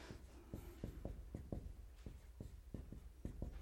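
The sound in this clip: Pen or marker drawing figures on paper: many short, quick scratchy strokes in a fairly even rhythm, faint and alone.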